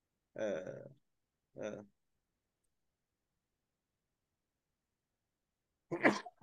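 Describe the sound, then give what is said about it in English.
A single sharp sneeze bursts out near the end of a quiet interview stretch, following two short vocal sounds and a long silence. “bless you”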